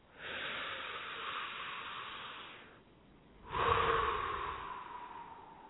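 A person breathes deeply during a guided breathing exercise: two long, airy breaths. The first is steady for a couple of seconds, then after a short pause a louder second breath slowly fades.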